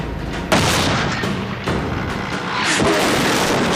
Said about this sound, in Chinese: 他击中了，他把虎式坦克打爆了